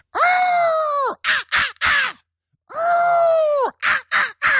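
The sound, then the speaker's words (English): A human voice imitates the call of an invented emerald-tailed skylancer bird: a long, strained, screechy note followed by three short sharp bursts, the whole pattern delivered twice in a row. “So the first bird is an emerald-tailed skylancer that obviously sounds like,”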